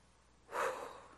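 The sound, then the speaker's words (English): A single deep breath, drawn in and let out during a calm, guided moment of breathing together: a soft, airy rush that swells quickly, then fades gradually, heard alone without talk. “Let's breathe together for just a moment.”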